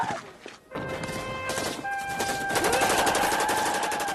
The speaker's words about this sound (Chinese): 张安东抓起机枪继续开火